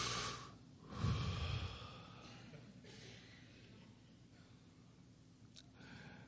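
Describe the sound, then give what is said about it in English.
A deep cleansing breath is taken by a church audience during a sermon, rising in a fuller, rushing swell near the start and then thinning into faint, airy breathing. “everybody just take a cleansing breath”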